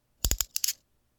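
Handcuffs snap shut in a quick burst of sharp metallic clicks in two short groups, bright and crisp against silence.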